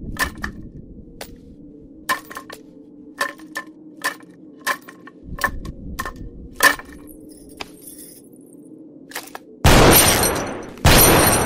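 Gunshots in a film shootout between heroes and bandits. Many sharp, irregularly spaced cracks sound over a low rumble, followed by two loud, sustained bursts of noise at the end.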